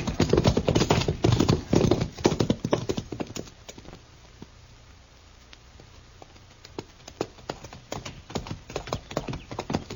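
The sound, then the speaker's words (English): Horses' hooves clip-clop as riders head back to a ranch: many hoofbeats, dense and loud at first, then thinning to sparse, fainter steps. “Come on, we'll ride back to Stanley's ranch.”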